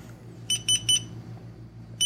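Digital hourglass timer beeping when its countdown finishes: three quick, high-pitched electronic beeps, a short pause, then a fourth beep, clear against a quiet background.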